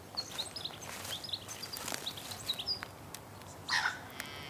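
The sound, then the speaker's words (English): Small birds tweet in bushes beside a path in Tasmania. Many short, high chirps come scattered over a soft, faint hiss, with one slightly louder call near the end. “I can hear lots of little birds tweeting away in the bushes as I walk along the path.”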